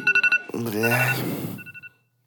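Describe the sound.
A telephone rings in a rap track, with quick bursts of a bright, trilling ring at the start and again near the end and a voice sounding in between.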